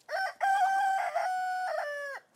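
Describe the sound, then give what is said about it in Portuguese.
A rooster crows once: a short opening note, then a long, loud, sustained call with several wavering segments that breaks off at the end, heard alone with no talk. “É o som de um galo a cantar.”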